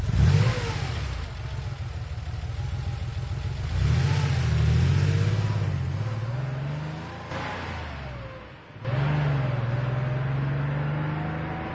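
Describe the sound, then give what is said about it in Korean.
A truck engine drives away along a mountain valley road at night, its loud drone climbing in pitch through gear-like steps, dipping briefly near the end, then pulling strongly again. “막내를 둘쳐 업은 내가 차에 오르자 부웅하는 발동 소리와 함께 트럭은 미끄러지듯 산골길을 달려갔다.”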